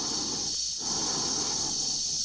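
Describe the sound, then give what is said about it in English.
Dave's breathing inside his spacesuit as the computer Hal is disconnected: slow, heavy breaths over a constant airy oxygen hiss, with a brief lull near the start. “Hal's apparently fearful emotional appeals to Dave to stop the disconnection process, and the rhythm of Dave's breathing.”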